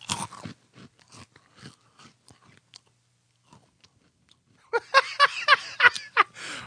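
Crunching and chewing of a honey and peanut-covered grain snack: faint, sparse crisp bites at first, then a louder flurry of dense crunches toward the end.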